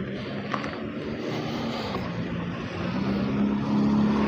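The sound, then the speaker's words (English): A car's engine rumbles steadily as the vehicle drives up and arrives, growing slightly louder toward the end, with no voices heard. “So, sorry, no sooner I get started, someone drives up in here. So, and they're not very slick.”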